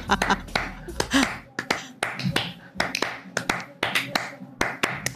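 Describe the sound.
Rhythmic hand clapping in a Spanish style: many sharp, crisp claps in quick clustered patterns with short gaps between them, fairly loud and continuous throughout.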